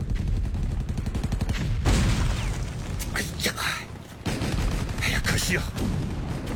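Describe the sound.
Machine gun fire covers an infantry charge in a wartime battle against tanks. A dense, loud rattle of rapid shots runs in a fast even stream, then breaks into heavy bursts and booming blasts.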